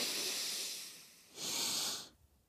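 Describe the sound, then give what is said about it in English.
Deep breathing in a breathing exercise: a long, airy, hissing breath, then a second, stronger breath that stops abruptly. No voices. “And we're going to breathe deep. Then we're going to move that breath up into our chest,”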